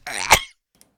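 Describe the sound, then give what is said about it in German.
A single human sneeze: a short, loud, breathy burst rising to a sharp peak, then near silence apart from one tiny click. “Oh, ich niesen.”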